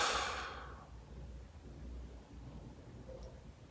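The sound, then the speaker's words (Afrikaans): A deep breath out during a relaxation breathing exercise, loud and breathy at first, then fading within about a second into faint, low background noise. “Om nog 'n keer lekker diep inasem som in jou maag in. En uit.”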